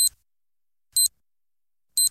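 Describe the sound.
Three short, high electronic beeps of an hourly radio time signal, evenly spaced about one second apart, sharp and clear against silence.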